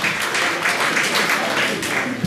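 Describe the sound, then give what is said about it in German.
Applause from an audience follows a German poem at a poetry reading: dense, steady clapping at moderate volume that carries through without pause. “Ja, es darf geklatscht werden.”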